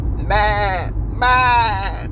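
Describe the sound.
A human voice imitating a sheep bleating: two long, wavering 'meh' cries with a shaky vibrato, separated by a short pause.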